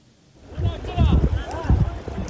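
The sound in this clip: Rushing water of the raging Kunar River as teachers cross it, a rough turbulent roar with wind noise that swells after a quiet start, with a voice talking over it.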